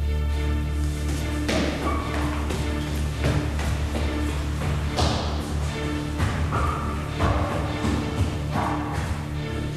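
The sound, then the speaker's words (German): Kicking and banging on a door: many heavy, irregular thuds and blows of varying loudness over a steady low hum. “Ich schlug und trat gegen die Tür.”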